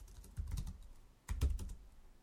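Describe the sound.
Typing on a computer keyboard comes in two quick bursts of clustered keystrokes, separated by a short quiet pause, with no voices over them.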